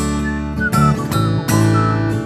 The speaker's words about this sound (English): Oh, that's a nice whistling, yeah.